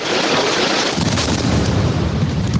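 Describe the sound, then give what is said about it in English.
Loud, dense rumbling roar of explosions from an aerial bombardment of Gaza. The blasts blur into one continuous, heavy wall of noise. “Israel's renewed aerial bombardment of Gaza has shifted from the north.”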